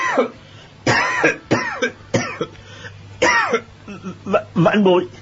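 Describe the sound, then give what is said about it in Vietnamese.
Repeated coughing by a man, performed by a narrating voice: a series of harsh, throaty coughs in an irregular rhythm, fairly loud and without words. “Bất giác hắn ho lên liên tục, một lúc sau mới nói:”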